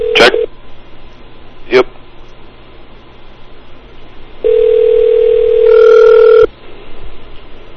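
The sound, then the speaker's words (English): Telephone tones as a number is dialed: two short sharp bursts, then a steady tone lasting about two seconds that a second, higher tone joins before both cut off. “As soon as you dial, flash over. Okay. 1 second. All right. He's dialing.”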